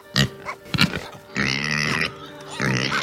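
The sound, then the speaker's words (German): Pigs grunting: a few short, low, snorting grunts come first, then two longer, harsher and noisier drawn-out calls, moderately loud and without talk. “Sie hat mit Hilfe von künstlicher Intelligenz die Bedeutung von unterschiedlichen Grunzlauten von Schweinen übersetzt.”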